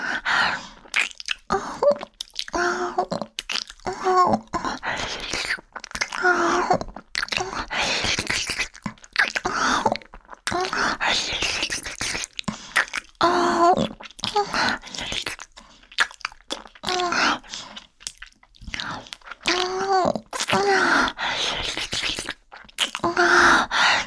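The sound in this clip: Food is chewed and bitten over and over, with many wet, crunchy mouth sounds in an uneven rhythm and short breaks between them. The chewing stays fairly loud throughout and no clear talk is heard.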